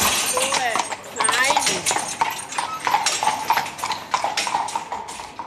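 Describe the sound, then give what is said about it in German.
Clip-clop of horses' hooves as a pair pulls a well-loaded carriage back to the stable after a compost round: many steady, crisp hoofbeats in a continuous rhythm. “Unterdessen ist die Kutsche gut gefüllt und die Rosse kommen langsam Hunger über. Die Komposttour ist fertig, jetzt geht es zurück in den Stall.”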